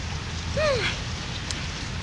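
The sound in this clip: Steady rain falls in a dense, even hiss that fills the whole clip at a constant level.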